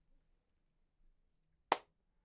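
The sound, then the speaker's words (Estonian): Hand clapping kept deliberately quiet during an Estonian singing game. Two faint, soft patters come first, then one sharp, crisp clap, all set against near silence. “lööge seda plaksu veits vaiksemalt lähme siis vaikse plaksu”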